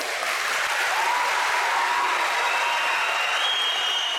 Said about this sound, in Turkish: Komandolar dakikalarca alkışlandı.